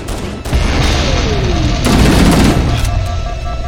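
Video-game gunfire: after a brief gap, a loud, continuous rattle of rapid shots, with a descending whine running beneath it partway through.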